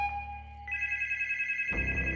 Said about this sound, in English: The phone rang again.